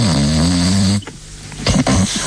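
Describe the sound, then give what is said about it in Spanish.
A woman snoring: one long, loud, buzzing harmonic snore lasting about a second, then a pause and a few softer, rougher breathy snorts. “Su señora está roncando.”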